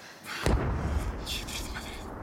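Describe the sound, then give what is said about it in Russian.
An artillery shell explodes beside a railway track: one sudden loud blast, followed by a sustained low rumble that fades slowly. “возле нее взрывается снаряд”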